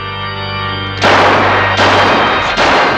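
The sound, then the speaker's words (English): Gunfire as hitmen shoot a couple in bed: three loud, harsh bursts about a second apart, each a sustained crackling blast, breaking in after a low, held musical tone. “The other two hitmen gun down a couple in bed.”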